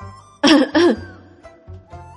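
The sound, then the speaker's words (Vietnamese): Two harsh coughs burst out in quick succession from someone choking on food, loud and raspy, followed by fainter breathy sounds. “Bạch Ngọc Đường không đề phòng sặc thức ăn, ho khụ khụ nhìn Tiểu Tứ Tử.”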